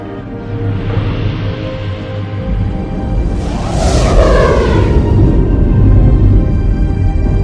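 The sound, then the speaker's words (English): A starship engaging full warp drive gives a loud, dense low roar that swells, with a bright rushing whoosh sweeping through the middle before the heavy rumble carries on steadily to the end. “Computer, full warp. Engage.”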